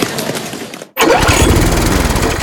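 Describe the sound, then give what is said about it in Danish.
Lawn mower engine running with a loud, steady drone and a rough mechanical rattle, broken by one brief cut-out near the middle before it continues at full volume. “Måske det er en ny græsslåmaskine, du har brug for. Det kan også være, at den bare skal repareres eller justeres lidt.”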